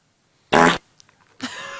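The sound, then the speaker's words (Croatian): A fart sounds in two loud, rough, buzzy bursts separated by a short quiet gap, the second one trailing off toward the end. “Jel smijem prdnuti ispred tebe?”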